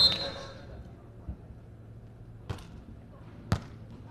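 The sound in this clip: A volleyball serve by Zhou Mingli of Nanjing team one in a match. A few sharp ball thumps stand out from a quiet background, with a commentator's voice present.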